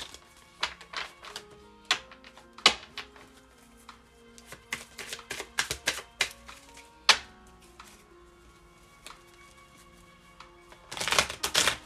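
Cards being shuffled and handled before a card reading: many light taps and soft clicks at an uneven pace, ending in a dense, crisp riffling burst. No one speaks.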